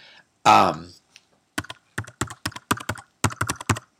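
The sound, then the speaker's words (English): Many fast, sharp clicks of typing on a computer keyboard come in quick irregular bursts. A short voiced sound is heard just before the keystrokes begin. “Isn't that lovely? That's the sound of me typing.”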